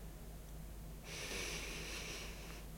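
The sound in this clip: Deep breath drawn in during a guided meditation: one soft, airy inhale that starts after near silence and holds steady for about a second and a half before stopping.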